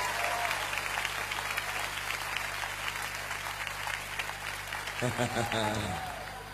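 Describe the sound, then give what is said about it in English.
An audience claps hands at a church service, with dense, steady applause throughout. A voice rises over the clapping near the end. “Give the Lord another hand clap.”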